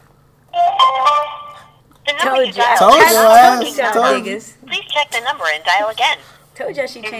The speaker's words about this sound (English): We're going to try and call her now and see if we can get her on the air.